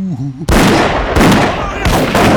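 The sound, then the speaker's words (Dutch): Three loud gunshots, each a sharp blast followed by a long rumbling decay and spaced roughly evenly, after a brief voice at the start. “hey, stop eens met schieten, joh”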